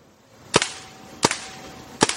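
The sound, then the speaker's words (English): Paintball gun shots hitting a tree: three sharp, loud cracks spaced evenly, each a quick double snap of firing and impact, with quiet background between them. “But to prove to everyone that it's painting here, you know, there's all our paintballs. We'll shoot the tree.”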